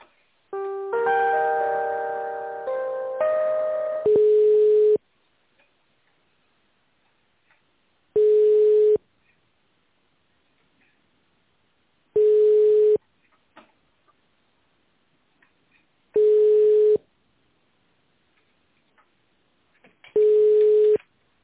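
Telephone ringback tone while a call is transferred to another department: five steady single-pitched beeps about a second long, repeating every four seconds with silence between, after a few seconds of layered electronic tones.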